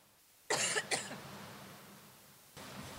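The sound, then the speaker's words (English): A person coughs twice in quick succession while addressing a gathering: two sharp, fairly loud bursts, followed by quiet and a faint rustle near the end. “excuse me, could I cough”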